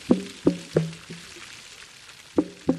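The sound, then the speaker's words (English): Gray whale vocalizing underwater: six short, low knocking pulses, each trailing a brief tonal hum. Four come in a quick series, the fourth faint, then two more after a quiet gap, over a soft background hiss. “That's the sound of a gray whale underwater, recorded by the Scripps Whale Acoustics Lab.”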